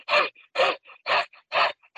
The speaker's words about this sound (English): The breath of fire that I've heard talked about is where you do like a short inhale, exhale.